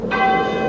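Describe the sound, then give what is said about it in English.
An email inbox notification chime sounds once: a short, bright, bell-like tone with steady ringing overtones, heard alone and fading within a second. “It's the sound of my inbox here.”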